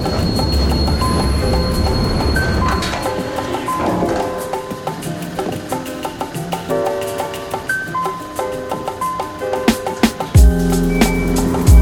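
A train pulling in, its wheels squealing in high, sustained tones over a steady heavy rumble, with rhythmic metallic clicks and clunks growing more pronounced toward the end.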